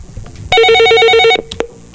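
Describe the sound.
A telephone rings for an incoming collect call: one loud burst of a rapid, trilling electronic bell that lasts under a second before stopping abruptly, followed by quiet.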